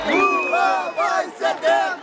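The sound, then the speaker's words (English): Crowd of supporters cheering at a political rally for Brazil's president: loud, continuous shouting and chanting voices that surge in several waves, without a break. “Supporters of President Lula da Silva cheering him on at a rally.”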